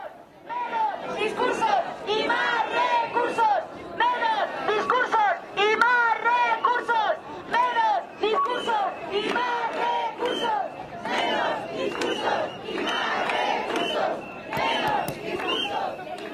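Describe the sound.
A protest crowd chants at Sol in Madrid over a wildfire burning in Castile. Many voices shout clear, rhythmic, sing-song slogans in repeated phrases with brief pauses, and chatter rises between the chants.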